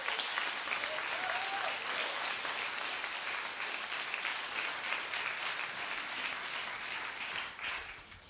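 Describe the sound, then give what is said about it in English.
Dense audience applause at a church welcomes a guest, a steady wash of clapping that runs throughout and eases slightly at the end. “So would you welcome him? Put your hands together.”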